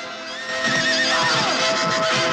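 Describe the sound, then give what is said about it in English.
A horse neighs loudly as it is ridden along the water's edge, a single drawn-out whinny with bright, wavering harmonics that holds steady and strong for the whole moment. “As a troubled Pelias rides on horseback along the water's edge, on the trail before him, the black-clad Hera suddenly appears.”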